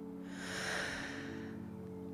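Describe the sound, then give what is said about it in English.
A slow, deep breath in and out, a soft airy swell that rises and falls once over a steady low hum, faint throughout. “He takes a deep breath in and out, and then another. In”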